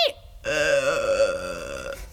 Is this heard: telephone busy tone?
no